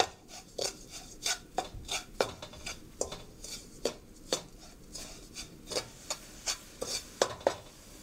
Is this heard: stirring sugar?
yes